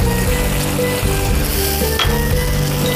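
Loud, continuous sizzling as cooking wine hits a hot wok of spicy chili chicken, a steady crackling frying noise throughout with no talk.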